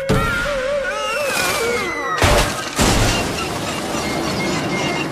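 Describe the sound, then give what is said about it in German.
A flying Easter sleigh crashing down, heard as two heavy, booming impacts a moment apart that cut through a dense, whistling tonal backdrop. “Der Osterschlitten spielt völlig verrückt, weil Phil so herumzappelt. Dann stürzt er ab.”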